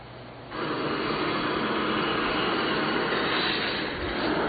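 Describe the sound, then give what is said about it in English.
Steady engine drone of a single-engine, canvas-covered Piper Cub airplane landing, starting abruptly after a moment of quieter noise and then holding a constant, even roar to the end. “This is called the second most famous landing in the world. The airplane you're looking at is a single-engine Piper Cub. The sides of the airplane and the wings are covered with canvas.”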